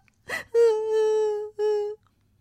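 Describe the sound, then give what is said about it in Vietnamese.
A voice imitates a brown rabbit character's sobbing: a short breathy catch, then a long sustained whimpering wail and a shorter second one, steady in pitch and alone against silence. “Cứ thế, thỏ Nâu hu hu khóc.”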